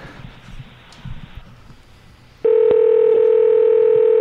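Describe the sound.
A phone line tone on an outgoing call: after low, faint rustling background noise, a loud, steady electronic tone begins partway through and holds unbroken to the end.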